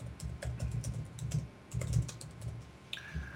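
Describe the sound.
Rapid typing on a computer keyboard as a name is entered, many crisp keystrokes in uneven bursts with short pauses and no talk.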